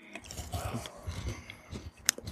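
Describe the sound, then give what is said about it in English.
Bites into a strawberry Kit Kat give a few soft, irregular crunches and chewing sounds, then one sharp, crisp snap near the end. “Take a bite of the Kit Kat. It's a solid Kit Kat right there.”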